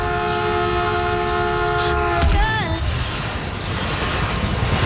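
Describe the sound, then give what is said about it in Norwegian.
A train arriving at a station platform sounds a sustained, multi-tone horn over a continuous rail rumble. The horn's pitch bends downward, then it cuts off, leaving only the steady rolling noise. “fordi når toget da kommer, så får man vondt. The train.”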